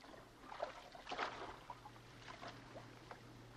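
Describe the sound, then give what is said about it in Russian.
A man wades through water towards a boat. Faint, soft sloshing and a few gentle splashes sound over a low steady hum. “Гальцев идет к лодке. Вода от его ног расходится рябью.”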